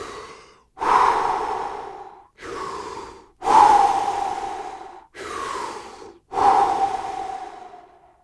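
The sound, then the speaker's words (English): Deep, strong, energized breaths in and out through the mouth, heard alone as a rhythmic series of loud airy rushes, each inhale followed by a longer exhale, about three full breath cycles. “In through the mouth and then out through the mouth. Not on a time cadence. Let's just take 3 like deep, strong, full, energized breaths. Okay, try this now.”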